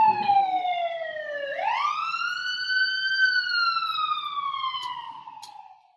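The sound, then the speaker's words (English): A siren wails alone during a meditation session. Its tone glides down, jumps sharply upward, then sinks slowly again in one long sweep before fading out at the end. “No meditation is complete without a siren.”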